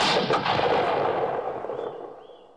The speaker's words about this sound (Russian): Останавливается, нажимает на курок.